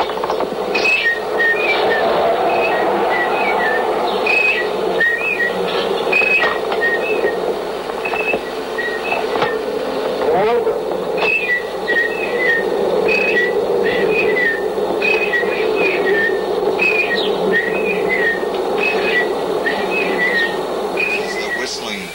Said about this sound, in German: er pfiff seine Melodien einfach.